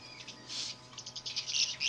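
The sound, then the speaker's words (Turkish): Caged birds chirping in a rapid, uneven series of many short, high tweets. The calls are faint, with no voices. “Ayağa kalkın kuşlar. Kafeste zor bir gün geçirdiniz.”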